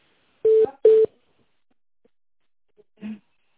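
Telephone call-transfer tones on a business call: two short, steady mid-pitched beeps in quick succession, then near silence and a faint lower blip.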